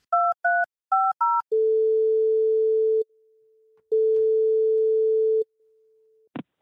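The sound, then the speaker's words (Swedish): Telephone keypad tones while calling a friend: four quick dialing beeps, then two long, steady ringing tones separated by a faint lower tone, and a short click at the end. “Så jag bara ska ringa upp honom bara lite fort”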